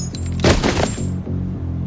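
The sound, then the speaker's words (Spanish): Gunfire in a crime-thriller film scene: a short, loud burst of shots rings out midway over a low, sustained droning bed that continues before and after. “La escena salta al futuro y Danny le dispara.”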